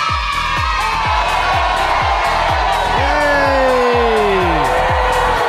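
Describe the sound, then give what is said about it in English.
An audience cheers and applauds as a loud, dense wash of noise over a steady, repeating thumping beat, with a long descending tone sweeping down near the end. “I think we'll have a round of applause for Chris's Constipation Is Gone.”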